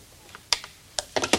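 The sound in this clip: Hanging up a telephone: a few sharp, clattering clicks in an irregular cluster, short and dry, over a faint steady hiss.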